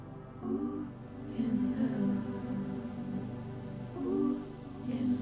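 Soft breathing through the right nostril, an exhale and then an inhale, heard as slow, airy swells over a steady background drone during a guided nostril-breathing exercise.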